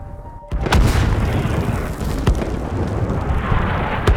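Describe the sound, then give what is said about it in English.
Heavy artillery shells explode during a battle: deep, thundering booms erupt over a continuous loud rumble, with several sharper blasts punching through the roar. No voices are heard. “The ground is shaking. The sky is like a witch's cauldron. There are hundreds of heavy batteries. Countless shells crisscross above us.”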